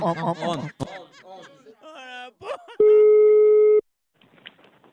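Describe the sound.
A telephone call tone sounds as a single steady electronic beep lasting about a second, after a burst of chuckling and laughter, with faint quiet sounds following.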